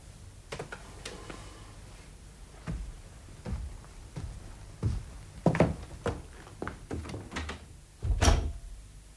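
A door is opened and closed amid irregular soft clicks, knocks and thunks from the handle and frame. The loudest thump comes near the end.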